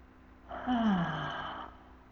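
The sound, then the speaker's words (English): A long breathy exhale through the mouth during a guided breathing exercise, lasting about a second, with a soft voiced sigh that falls in pitch before trailing off. “lifting your whole torso with your breath, bringing the top of your arm bones back and down, and exhale through your mouth.”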